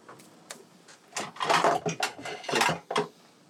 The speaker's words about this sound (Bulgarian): Пускам нудлите да се варят за една-две минути.